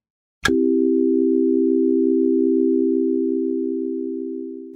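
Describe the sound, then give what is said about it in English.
A single sustained tone in the key of C, from a calm ambient piece, opens with a brief click and then holds steady and unwavering at a low-mid pitch for about four seconds, easing slightly in level near the end. “You've been listening to Calm Tone number 47, a single tone reverberating for 27 minutes.”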